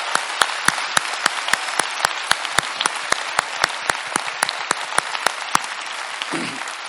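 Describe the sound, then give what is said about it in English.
Audience applause for church staff and pastors at a Christmas service, with many sharp, evenly spaced claps keeping a steady beat over a softer wash of clapping, ending in a low thump. “If y'all can give them a big hand for all this service for all year.”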